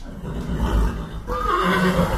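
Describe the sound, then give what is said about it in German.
A horse whinnies among breeding horses kept in a stable: one shrill, quavering neigh rises over steady low rumbling background noise. “beim Ehepaar Katrin und Stefan Blini rund 40 Zuchtpferde im Stall”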